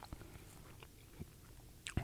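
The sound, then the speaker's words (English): Soft chewing and biting as someone eats pizza: a few faint, brief crunchy bites spread across the moment, with the sharpest one just before the end. “I'm sorry that I'm eating at the beginning of the show, but I had to finish that pizza.”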